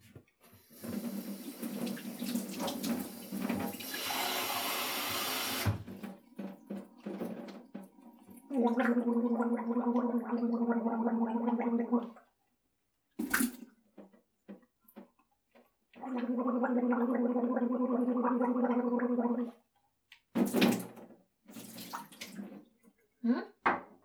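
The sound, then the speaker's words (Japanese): Voiced gargling of water in a sink, after tap water runs in a hand-washing routine: two long, steady throaty gargles with a buzzing tone, separated by short splashes and a pause. “うがいはね、ちゃんと声出してやった方がいいんだって。”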